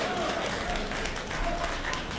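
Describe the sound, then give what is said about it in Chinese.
Audience applause at a Beijing traditional opera and folk-art performance, a faint, even wash of clapping that holds steady throughout. “这个大家鼓掌，再来一段”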